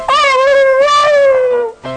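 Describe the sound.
A dog whimpering: a high, tonal whine held for nearly two seconds, its pitch slowly sinking, then a brief second whine after a short break. It is loud and alone.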